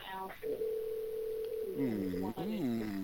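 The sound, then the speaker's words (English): Ringback tone on a telephone line while a call waits to be answered: a steady, moderate tone of just over a second, with voices talking around it. “We have him on the phone? Oh, Almost. Hello. Nope, it's still ringing. Oh, it's still ringing.”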